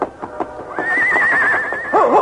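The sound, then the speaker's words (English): A frightened horse neighs, a shrill, wavering whinny that sustains and then breaks into loud, rippling cries at the end, with no voices. “Try to get on this horse. Maybe we can both make it.”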